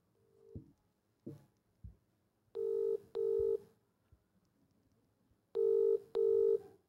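Telephone ringback tone on a call: a few faint clicks and bumps, then two cycles of a double ring, each a pair of buzzing mid-pitched tones, quiet and without voices.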